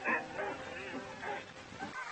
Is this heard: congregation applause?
no